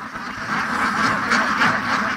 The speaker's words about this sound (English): I'm watching the runner ducks now, swarming the fields, pecking between vines, and ducking under wire trellises.